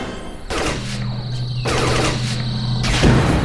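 A ship's cannon fires during a chase in a space battle: a few broad, rushing blasts over a steady low engine hum. The sound grows louder toward the end.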